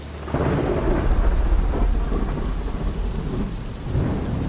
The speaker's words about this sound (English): the storm was right on top of us. The lightning flashed again, and straight afterwards,